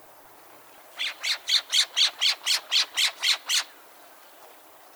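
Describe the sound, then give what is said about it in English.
A Woodhouse's scrub jay gives a rapid series of eleven harsh, high squawks in an even rhythm, with nothing else heard. “Scrub jays also have a rapid series of calls that sound like this.”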